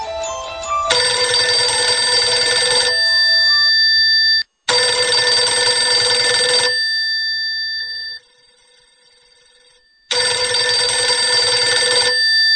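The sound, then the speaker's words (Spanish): A mobile phone ringtone rings loudly: a bright electronic melody of sustained tones repeats in long bursts separated by short pauses, with no voices. “Su celular empezó a sonar de manera estrepitosa.”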